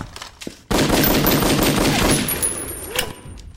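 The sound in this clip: Loud, rapid gunfire breaks out suddenly after a quieter opening and continues as a dense, sustained burst of shots to the end, with no talk.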